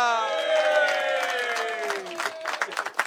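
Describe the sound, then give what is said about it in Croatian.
A drawn-out announcing voice comes first, and applause for Croatian politician Furio Radin breaks out near the end. The clapping starts as scattered bursts and builds quickly. “Molim vas, veliki aplauz za Furija Radina!”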